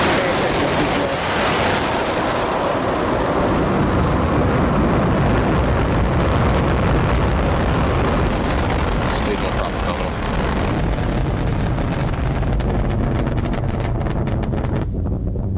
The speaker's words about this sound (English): We've had a successful liftoff of the Falcon 9 vehicle carrying the GPS-3 space vehicle into transfer orbit.